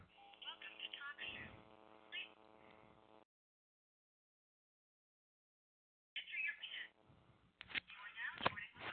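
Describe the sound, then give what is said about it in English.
Telephone dialing tones as a number and extension are keyed in to call a phone line. Narrow-band tones and clicks come in a burst, stop for a few seconds of silence, then return with noisier tones. “Just dialing in.”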